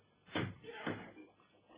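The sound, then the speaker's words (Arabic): Two knocks on a door in a radio drama, each a dull thud with a short ringing tail. A faint murmur lingers in the background between them. “ايه ده، انت سمعتم حاجة؟ ايوة، زي ما يكون حد خبط على الباب.”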